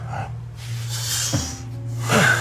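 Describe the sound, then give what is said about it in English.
A man breathes heavily with a raspy, wheezing edge. A few rough breaths and a snort-like intake stand out over a low, steady background. “I can't stand how that one guy breathes. It's so gross to me. It's like wheezing.”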